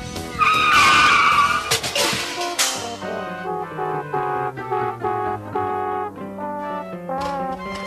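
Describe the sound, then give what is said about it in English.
A race car speeds along a track and skids, its tires screeching loudly in a harsh burst over the first few seconds, then giving way to steady music-like tones, with no talk. “She's racing towards the finish line. Vroom, the world's fastest driver.”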